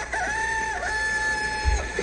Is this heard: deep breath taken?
no